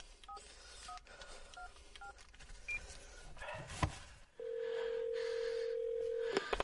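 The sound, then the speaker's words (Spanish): A mobile phone is switched on and dialed, giving a few faint, short keypad beeps in an irregular sequence, then a long steady tone held for about two seconds. “Enciende de nuevo el teléfono.”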